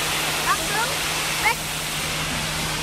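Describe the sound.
Water rushing from a large, heavy fire brigade hose: a dense, steady hiss fills the whole clip, broken only by a couple of brief high chirps.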